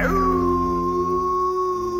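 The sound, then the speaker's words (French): A wolf howls in one loud, sustained tone that dips slightly in pitch at the start and then holds steady for about two seconds. “Pour trouver le loup, ça ne va pas être compliqué, dit la mère. Il suffit de suivre ses cris.”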